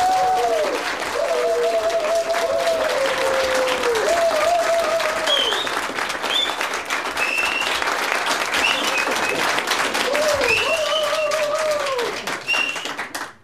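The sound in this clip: Sustained applause from an audience at an entertainment show, thick and steady for about thirteen seconds, with a woman's high, repeated hoots rising above the clapping before the ovation fades at the end.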